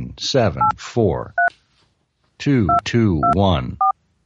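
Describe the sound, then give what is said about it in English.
Telephone keypad dialing tones: several short, steady two-note beeps at irregular spacing, each clear and mid-pitched, set between stretches of speech, with one beep sounding alone in a brief pause. “Take out your phone. Press those numbers,”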